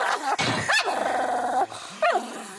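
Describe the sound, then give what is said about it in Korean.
A dog with a habit of biting snarls and barks: a harsh bark, then a long rough growl, then another sharp bark after a short pause, all loud with no talk. “아무한테나 으르렁거리는”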